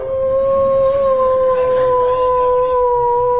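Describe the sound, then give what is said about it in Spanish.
A dog howling in one long, sustained, wavering tone that holds steady at a fairly high pitch throughout. “un perro, ¿no?, que empieza a aullar.”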